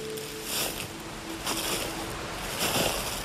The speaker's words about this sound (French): au clapotis, plutôt au ruissellement de l'eau en contrebas.